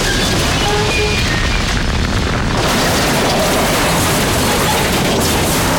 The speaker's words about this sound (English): the carriage explodes and the blast rolls the van over like a toy